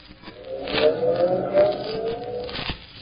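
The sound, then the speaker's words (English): A taxi stopping at a crowded intersection: a continuous rumble of traffic with a wavering tonal whine running through it, plus a few short clicks and scrapes. “But at this same time, many blocks away, a taxi stops at a crowded intersection.”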